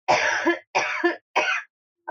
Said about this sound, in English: I don't think coughing's a very good topic.